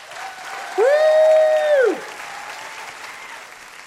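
Audience applause welcomes a guest onto the stage, steady clapping throughout, with one sustained vocal whoop rising above it for about a second.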